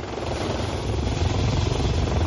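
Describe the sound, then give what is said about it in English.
A white helicopter with red and white blades arrives at a hospital rooftop in Midtown Manhattan by the East River. Its rotor noise is a steady, broad whirring roar that grows slightly louder toward the end. “Finally, I spot it. A white helicopter with red and white blades, carrying some very precious cargo. The blades whir to a halt, and some people step out.”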